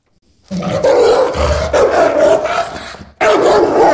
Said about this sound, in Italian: Se invece il cane fa così, preoccupati. È un ringhio di intimidazione che indica l'avvicinamento di un altro cane o di una persona non gradita.